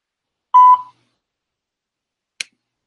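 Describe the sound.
A voicemail recording beep sounds once as a short, steady electronic tone, followed by silence and then a faint brief click.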